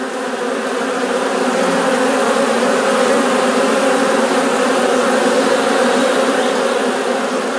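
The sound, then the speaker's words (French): Wasps buzz around a nest during an extermination, a loud, dense, continuous drone of many insects that hums evenly without pause from start to end. “quand on entend ce bruit puis ces guêpes tournées pour les détruire, on ne fait pas le malin, quoi.”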